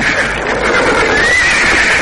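A horse neighs while pulling a horse cart, a loud, dense and continuous sound that holds steady throughout with no clear pauses.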